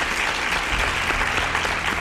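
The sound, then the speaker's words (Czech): Hand clapping in dense, continuous applause, steady and fairly soft, with no single claps standing apart. “Ano, ano, tleskám.”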